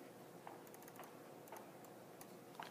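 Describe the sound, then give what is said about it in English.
Faint computer keyboard typing, with a few soft, irregularly spaced key clicks over a steady low hiss. “Type it there, type the keyword there, type it there, and it works.”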